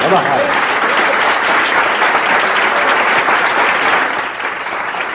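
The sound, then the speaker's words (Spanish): An audience applauds during a Christian sermon. The clapping is loud, dense and steady for about five seconds and eases slightly at the end, with no distinct voices above it. “Démosle un aplauso.”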